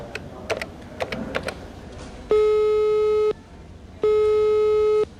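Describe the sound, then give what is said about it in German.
Telephone ringing tone heard while phoning someone: two long, steady electronic tones of about a second each, separated by a pause. A few quick key taps come before them. “Ich werde ihn anrufen und fragen, was er für Neuigkeiten hat.”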